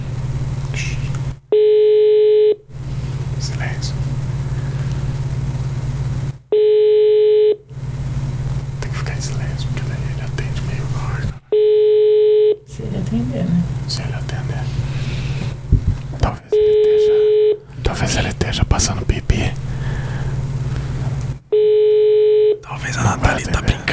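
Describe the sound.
A telephone call ringing out unanswered, with five steady electronic ring tones at even intervals, separated by talking and a low background hum.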